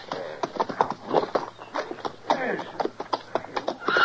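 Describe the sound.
Hooves of a horse being ridden clop in a fast, steady run of many sharp beats, moderately loud and uneven in strength.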